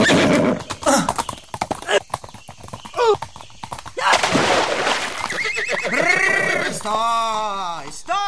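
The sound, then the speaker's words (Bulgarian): A horse urged to run faster: hooves clip-clop in a quick, uneven series, then a loud, wavering neigh with several pitch swoops near the end. “Не послушам съвета на конника и не накарам коня да препусне по-бързо.”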